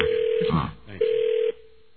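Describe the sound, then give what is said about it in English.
A telephone ringing tone as a call rings through to voicemail: two steady, mid-pitched electronic tone bursts of about half a second each, separated by a short gap, with the line fading quiet after the second. “It'll be ringing to this guy's voicemail. Ring to this guy's voicemail.”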